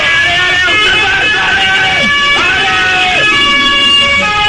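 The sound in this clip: An arriving emergency van's siren sounds as a sustained high wailing tone with a few gliding pitch shifts, while a voice talks over it.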